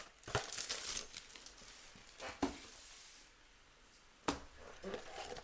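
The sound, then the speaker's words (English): A retail box of 2023 UFC Prizm trading cards is opened. Three sharp bursts of tearing and crinkling packaging stand out, with quieter rustling between them. “Here is this retail box that we're going to open first.”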